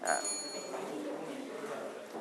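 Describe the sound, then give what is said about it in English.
A small bell rings once during a classroom quiz game, giving a bright metallic ping at the very start that fades quickly into low background noise. “You can ring the bell from the breakfast. From the breakfast, ring the bell.”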